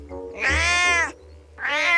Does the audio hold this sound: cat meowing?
yes